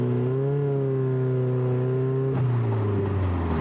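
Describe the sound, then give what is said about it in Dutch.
Engine drone from a classic wooden-bodied Plus 4 sports car with a 154 hp Ford four-cylinder and a sports exhaust: a loud, steady, deep humming growl that eases slightly lower in pitch partway through. “Ja, het motorgeluid, die krijgt wel een hele mooie nadruk hier. En dan van die lekkere Lekkere plofjes als je het gas loslaat.”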